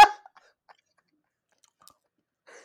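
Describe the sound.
Someone chews a bite of cake. One loud, crunchy bite comes at the start, followed by a few faint, scattered mouth sounds in near silence.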